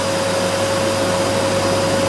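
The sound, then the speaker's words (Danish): A vacuum cleaner running: a loud, steady motor drone with an even whooshing airflow and a constant high whine, unchanging throughout with no voices. “Det der, det er en støvsuger. Det er rigtigt, det er en støvsuger.”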